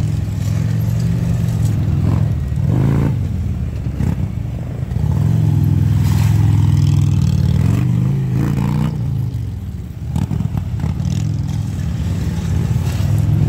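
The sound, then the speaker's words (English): A police motorcycle in a police rodeo competition leans hard through tight maneuvers, its engine droning and revving steadily while short, gritty bursts of the floorboard scraping along the ground cut in at intervals. “Hear the scraping? It's his floorboard scraping on the ground. He's leaning that bike over so far.”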